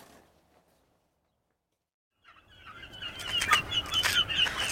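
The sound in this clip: A flock of turkeys gobbling: after a near-silent stretch, a raucous clamor of overlapping gobbles and squawks swells in and grows loud, with rapid bursts and many calls at once.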